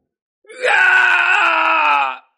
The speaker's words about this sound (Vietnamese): Tên thái cổ vương kia kêu lên thảm thiết, nguyên thần suýt nữa bị hút ra